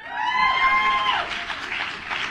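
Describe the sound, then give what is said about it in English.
Crowd cheering and applause swell up after a short, high, sustained tonal sound at the start, turning into a broad, ragged roar of many voices and clapping that ebbs slightly near the end. “And the crowd cheered.”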